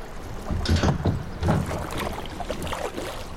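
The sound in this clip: Kayak paddle strokes dip and splash on a river beside a pontoon, a few uneven watery swishes rising over a steady breezy rush, with no voices.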